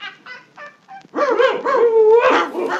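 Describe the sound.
Hunters' dog barking and yelping: a few short, thin yelps, then louder, longer whining barks with wavering pitch that carry on to the end.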